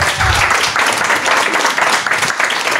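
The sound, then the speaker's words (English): Audience applause at a live show, a dense, loud wash of clapping that holds steady for the whole stretch with no break. “All right, give it up one more time for Louis Capaldi.”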